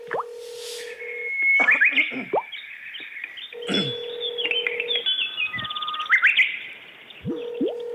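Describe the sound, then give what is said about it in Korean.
A pet bird chirps at home with many quick, high tweets and trills in irregular bursts, mixed with steady electronic beep tones that come and go. “집에서 새를 키우시는 모양이에요.”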